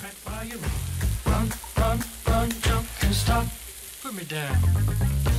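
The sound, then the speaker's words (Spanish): Chopped onion browns slowly in a frying pan with a steady, crackling sizzle that keeps going throughout, rising and falling in small bursts. “Dejamos que la cebolla vaya dorando de a poquito, de a poquito.”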